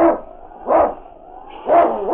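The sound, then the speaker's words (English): A sled dog barks: a Husky lead dog in a snowy, windswept northern wilderness. Three loud, fairly low barks come at an even pace with no voices. “It's Yukon King, swiftest and strongest lead dog of the Northwest”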